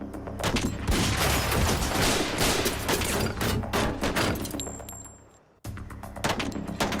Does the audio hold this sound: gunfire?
yes